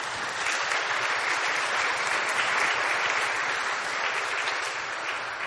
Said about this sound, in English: So agricultural and medical missions and spiritual work in Haiti, let's welcome the Teeds. Could we? Let's give them a hand.